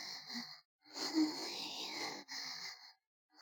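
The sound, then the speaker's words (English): Breathing: a few long, breathy exhalations and sighs, soft and close, separated by short silent pauses. “Listen to the sound of my breath.”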